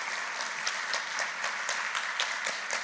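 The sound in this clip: Audience applause welcoming a speaker: dense, steady clapping with sharp hand claps standing out, sustained at even loudness with no talk.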